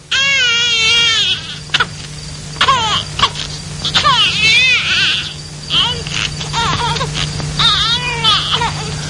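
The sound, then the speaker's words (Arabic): A baby cries in repeated high, wavering wails and sobs, loud and nearly continuous, over a steady low hum. “وسمع صوت البكاء”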